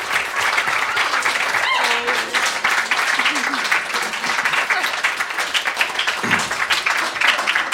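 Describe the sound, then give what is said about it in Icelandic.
Audience applause from a crowd, dense and steady clapping that runs loud through the whole stretch, with a few voices and brief tonal calls rising out of it partway through. “gefðu eitt klapp”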